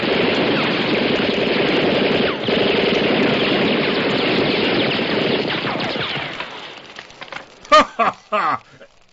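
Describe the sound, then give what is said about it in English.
Rapid automatic gunfire rings out in an anime action scene, a dense, continuous roar of shots lasting about six seconds before tapering off. A few separate sharp bursts follow at the end. “watch out! He's got a gun!”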